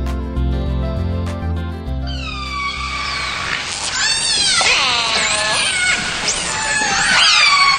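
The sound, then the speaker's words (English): A group of wild orcas off Washington call to one another in a busy chorus of high whistles and squeals that sweep up and down in pitch. Soft music plays alone for the first two seconds before the calls begin. “Sound of a group of wild orcas here communicating, collected by Howard Garrett at the Orca Network in Washington. They're in the wild.”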